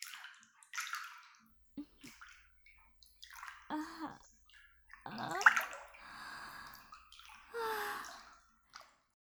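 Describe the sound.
Water splashes and sloshes in an open-air hot spring bath: a few irregular, soft splashes and drips at moderate loudness, with no talking.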